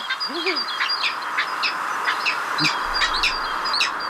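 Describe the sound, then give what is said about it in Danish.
A peregrine falcon calls in a long, steady series of short, sharp, high notes. A brief lower, wavering call comes near the start. “En vandrefalk lyder sådan her.”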